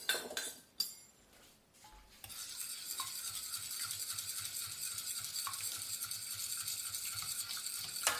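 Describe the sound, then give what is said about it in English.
A fork mixing a cooled mixture, steady rapid scraping and clinking strokes that run for several seconds after a brief clatter of handling; quiet overall. “Pull it down a little bit. Let's mix it. Where is my fork?”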